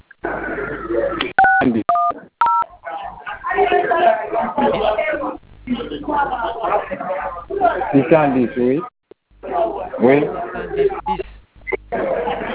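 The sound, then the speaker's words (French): Telephone keypad tones dial 610 as three short, clipped dual-tone beeps near the start, amid a phone conversation in which people talk before and after the digits. “vous allez composer 610. Pardon? 610.”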